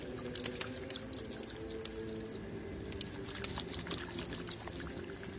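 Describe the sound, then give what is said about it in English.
Oils and water poured onto crushed, ground angelica root for mixing into a paste. A soft, continuous trickling with faint crackly pattering, quiet and with no talk. “And I will be mixing the angelica root with some of these oils that I brought and some water.”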